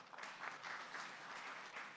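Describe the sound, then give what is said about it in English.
Audience applause welcoming a panelist at a university debate on higher education, a soft, steady wash of many clapping hands lasting the whole stretch. “A round of applause.”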